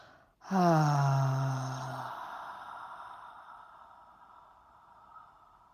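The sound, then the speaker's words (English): A powerful deep exhale through the mouth in a guided breathing exercise begins as a loud voiced sigh with falling pitch. It trails off into a long, fading breathy rush of air. “Powerful deep exhale through the mouth.”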